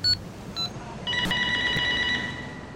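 Electronic ringing tone of an outgoing phone call: a few short bright tones at the start, then a steady, high, multi-pitched ring that holds to the end over faint background hiss.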